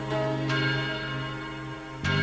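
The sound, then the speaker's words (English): A large bell rings with a few clear strikes, each leaving a long, humming wash of overtones that sustains between blows, loud and with no voices. “The ringing of the division bell had begun.”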